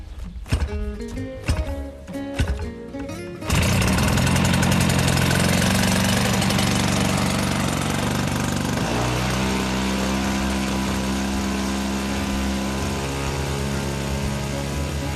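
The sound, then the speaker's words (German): An 80cc boxer engine on a Piper J3 model plane with a 3.35 m wingspan fires up and settles into a loud, steady buzzing roar that shifts slightly in pitch as it keeps running. “Ja, das ist die Piper J3 mit einer Spannweite von 3,35 Meter. Und da ist drinnen ein 80 Kubik Boxermotor. Na, dann werfen wir mal an den Boxermotor.”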